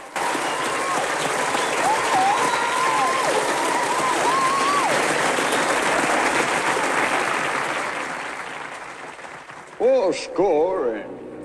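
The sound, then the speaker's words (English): Audience applause at a stage show as an Abraham Lincoln character steps to the front of the stage: loud, steady clapping that fades gradually, followed by a man speaking. “He stops at the front of the stage and laps up the applause.”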